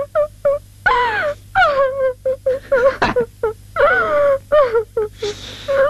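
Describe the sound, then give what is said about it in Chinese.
A person crying: a long run of wailing sobs in many short, voiced bursts, each rising and falling in pitch, broken by quick gasping breaths and moderately loud throughout. “我知道你心里不好受。不哭，咱不哭啊。”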